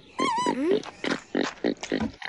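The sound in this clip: Pig oinking: a high squealing glide at the start, then a series of short nasal grunts in an uneven rhythm.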